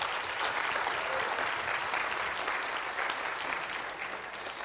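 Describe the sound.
A church audience applauds to welcome new members into the chapel, an even and continuous patter of many hands clapping without a break.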